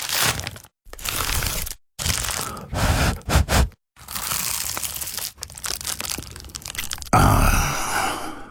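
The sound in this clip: Biting and chewing an award-winning pie: loud, crisp crunches and crackling bites arrive in several bursts, broken by a few short silences, with sustained crumbly chewing toward the end.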